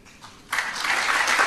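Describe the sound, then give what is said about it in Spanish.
Applause from an audience at a degree ceremony: a short quiet lead-in, then steady, dense clapping that holds evenly to the end. “El aplauso también para todos ellos”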